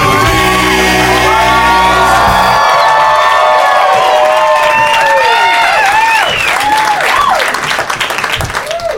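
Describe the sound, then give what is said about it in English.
Audience applause and cheering close out a song: a final held chord, then loud, dense clapping with shouts, whistles and whoops that carries on to the end. “Hey everybody, the clapping is so is so off by the end of the song every time.”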